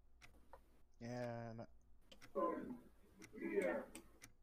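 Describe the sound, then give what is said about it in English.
Ticking clicks at a steady pace, faint and sparse, under people talking. “What's with the ticking?”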